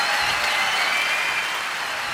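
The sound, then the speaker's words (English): Applause from the audience at a live big band concert: a steady, dense round of clapping that stays loud and unbroken throughout. “So let's give a big round of applause to this situation.”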